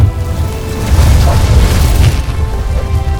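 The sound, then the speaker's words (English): A fireball spell explosion sound effect used during a tabletop role-playing game, with a dining room erupting in flames. It is a loud, continuous, rumbling roar with heavy low boom and crackling noise that lasts the whole three seconds. “As your entire dining room erupts in flames, your new table turns to ash.”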